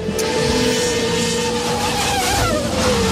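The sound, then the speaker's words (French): Autonomous race cars roar past at speed, a loud continuous engine whine with shifting pitch that stays dense throughout, with no voices. “Ce bruit de course automobile, c'est un tout nouveau sport auto”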